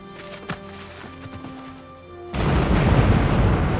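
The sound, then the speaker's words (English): An explosive charge blows up a gateway: a quiet hum with a faint thump gives way to a sudden, loud, rumbling roar that holds steady to the end. “So much for the gateway. The charge blew up.”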